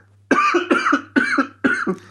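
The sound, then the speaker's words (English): A man coughs four times, each cough a harsh double hack, loud and evenly spaced, with no other sound around them. “He's just coughing up a storm because he can't take how bad the scene was.”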